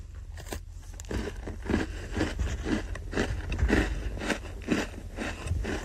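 Crisp biting and chewing of a crunchy, almond-flavoured sablé biscuit. Many short, dry crunches come in a loose, steady rhythm, fairly faint and with no talking.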